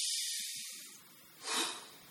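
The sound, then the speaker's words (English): Deep breathing for a calming exercise, heard as faint, airy breath sounds with no other sound around them. A long hissing breath fades out, then a shorter, stronger breath swells and fades. “Stop and take 6 deep breaths. Not 5, not 7. 7 will work too, but not less than 6.”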